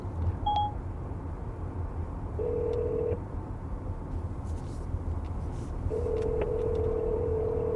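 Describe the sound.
An outgoing hands-free phone call placed from a car on a highway: a short beep, then two ringback tones, the second longer, over steady road rumble.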